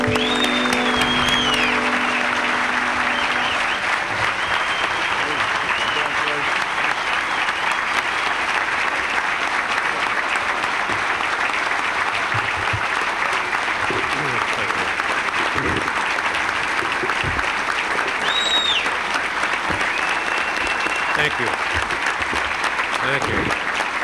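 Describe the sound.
Audience applause welcomes the winner of the 2000 Red Smith Award, a dense, steady clapping that holds at an even loudness for the full stretch with no voices over it.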